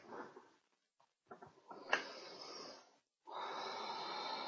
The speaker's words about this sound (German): Ich atme durch, ganz liebevoll, sanft und weich.